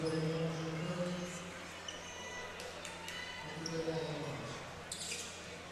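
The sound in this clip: A basketball is dribbled during a high school boys' game between Anchor Bay and St. Clair. Repeated thumping bounces sound under a commentator's voice and the hum of the gym crowd.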